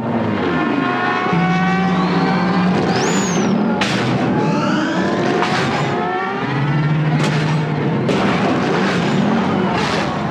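Podracer engines roar through a film racing scene as a loud, continuous mechanical drone with whining tones and sliding pitch sweeps, plus sharp bursts of sound several times as the racers tear past.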